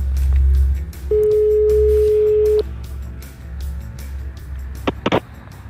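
A single long ringback tone on a telephone line as a call is placed to a hotel: a steady, pitched beep lasting about a second and a half over a low rumble, followed near the end by a few faint clicks.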